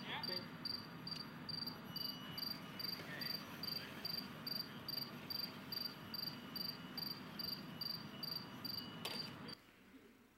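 Cricket song played to steer a robot cricket, recorded on a wintry day: a long series of short, high-pitched chirps repeating at a steady, rapid rhythm, each faint and even, stopping just before the end.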